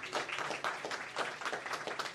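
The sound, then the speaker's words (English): Audience applause at a school sports awards ceremony, a dense and steady patter of many hands clapping together that holds at an even level for the whole stretch, with no voices heard over it. “That you can all clap for because those are pretty good, I think.”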